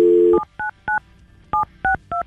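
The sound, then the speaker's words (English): A telephone dial tone cuts off into five touch-tone beeps as a phone number is dialed, the short tones coming at uneven intervals with no voices. “We've got Taylor's phone number, and we're going to call her now.”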